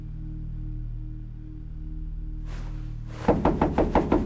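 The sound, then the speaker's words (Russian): Rapid knocking on a prison cell door, a quick run of sharp, evenly spaced blows in the last second, preceded by a steady low electrical hum. “стучит в дверь. Откройте.”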